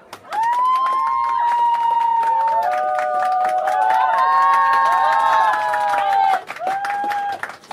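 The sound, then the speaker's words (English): An audience cheers and applauds to welcome a resident comedian onto the stage, a sustained crowd roar with high whooping voices that holds for several seconds before cutting off. “So please put your hands together and give a warm welcome to our resident comedian”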